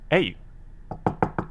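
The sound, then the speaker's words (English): Knocking on a door: five sharp, hard raps in quick succession, the first softer, following a brief vocal sound. “Hey, I hear a knock on the door.”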